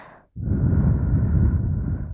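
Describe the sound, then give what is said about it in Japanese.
A rush of air through a microphone attached to a guinea pig visiting an event venue. After a short gap comes one loud, breathy blowing noise that holds steady for under two seconds before easing off. “マイクは会場に遊びに来ているモルモットさんに取り付けられています。ふうふうするとすごいビクビクする。”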